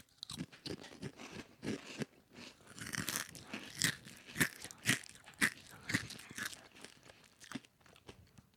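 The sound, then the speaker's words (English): Crunching of 3D spicy ranch Doritos chips being bitten and chewed, with many crisp, brittle crunches in an irregular rhythm, fairly faint and mostly without talk. “What do you taste mostly in the chip? Let me eat another one.”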